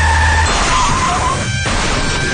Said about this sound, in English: Stop breaking through the window, Kenny. Oh, I'm gonna crash.